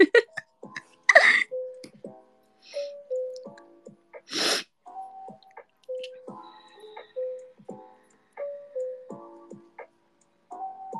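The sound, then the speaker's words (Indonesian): Snot being sniffed up through the nose instead of blown out: a few sharp, breathy sniffs stand out amid soft tonal sounds, with quiet gaps between them. “jadi kita tidak membuang ingus, guys. Kita menghirup ingus.”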